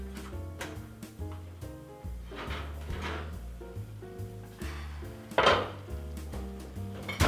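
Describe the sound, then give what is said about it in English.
A baked vegan sweet potato and kale casserole with coconut milk and chickpea crumbs is lifted out of the oven: a few clunks and scrapes of the dish and oven over soft background music. “So the casserole has been cooking for 1 hour. I'm excited to take it out.”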